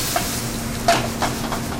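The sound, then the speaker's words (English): Hot Brussels sprouts, still a little wet, sizzle as they are thrown into a sauté pan: a steady frying hiss with a few soft clattering bumps. “My Brussels sprouts are pretty much hot, and there's a little bit of water still on them. Throw those in the pan.”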